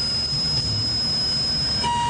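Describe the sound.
Aircraft engines powering up to 72,000 pounds of thrust for takeoff, giving a sustained high, thin whine over a steady low roar.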